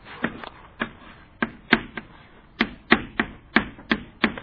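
Writing on a board gives a quick series of many sharp taps and knocks in an uneven rhythm, each a crisp click with a short tail.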